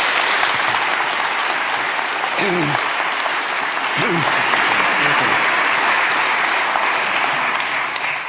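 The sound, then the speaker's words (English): Warm audience applause welcoming a professor to speak at an evening lecture; thick, continuous clapping runs throughout, with a couple of brief voiced calls rising above it. “So can we give a very warm welcome to Professor John Lennox?”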